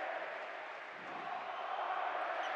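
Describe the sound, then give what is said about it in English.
Arena crowd at an NBA playoff game, Jazz vs Clippers, with fans chanting at Paul George: a steady, dense roar of many voices that holds throughout without a break. “Crowd chanting overrated to Paul George.”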